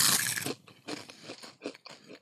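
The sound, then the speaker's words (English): Crunching and chewing of a crunchy, spicy cereal for ASMR, opening with a loud, crisp bite. A run of softer, uneven chewing crunches follows. “here's some delicious cereal ASMR”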